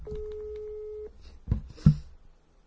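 A telephone call tone sounds after a number is dialed: one steady, clear tone lasting about a second, followed by two brief, dull thumps.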